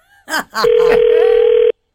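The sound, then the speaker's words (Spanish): One long, steady telephone tone rings out while a call is being dialed, lasting about a second after a brief burst of voice at the start. “Estamos marcando a Mario.”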